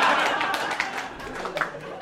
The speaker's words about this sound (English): Yeah, keep clapping. Let's do it.